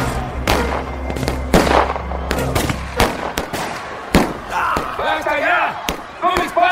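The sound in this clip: Gunshots fired into the air to scare off a crowd: many sharp, loud cracks in an irregular burst, mixed with shouting voices.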